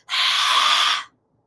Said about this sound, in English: maybe you need to just lion's breath.